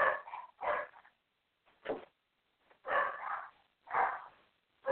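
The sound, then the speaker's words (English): Dogs bark in short, irregular bursts separated by brief silences. The barks are faint and somewhat muffled, and no voices can be heard. “Sorry about the dogs.”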